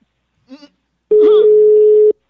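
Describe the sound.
Telephone ringing tone on an outgoing call, a single steady, level electronic tone lasting about a second, loud and unbroken, preceded by a brief faint vocal sound.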